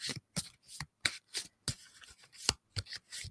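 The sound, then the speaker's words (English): Soft papery slaps and rustles sound as a fallen deck of oracle cards is gathered up. The faint, brief bursts come in a quick, uneven series, with no talk. “that deck just fell all over the place. I'll have to pick them up.”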